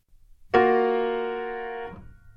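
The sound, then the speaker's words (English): A simple four-note chord from a spring round dance is struck once with a sharp onset and held for about a second and a half as a steady, slowly fading tone, then cut off. “It's a very simple chord that sounds like this.”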